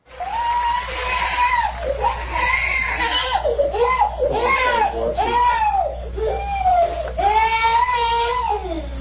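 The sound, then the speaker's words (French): A child cries through a tantrum, a loud, sustained run of repeated wails that rise and fall in pitch, one straining cry after another. “Un enfant qui fait une crise et qui ne veut pas seulement faire une crise, on l'a commencé tout de suite, mais qui veut être vu alors qu'il fait sa crise. On le regarde ensemble.”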